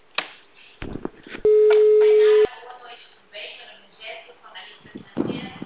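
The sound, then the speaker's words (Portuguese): A telephone ringback tone plays while a call is being placed, a single steady, pure tone lasting about a second, with someone talking before and after it. “Tô ligando pra Patrícia aqui, tô tocando.”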